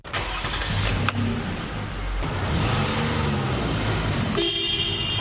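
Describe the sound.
Road vehicle noise at a Somali-owned car repair garage in Melbourne: a steady engine rumble runs throughout, and a brief tonal car horn toot sounds near the end.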